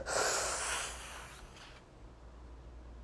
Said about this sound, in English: And we take a big breath in